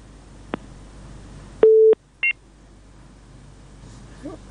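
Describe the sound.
Telephone tones from a dropped call: one steady, longer low beep and then a short, higher beep. Both sound alone over faint background hiss.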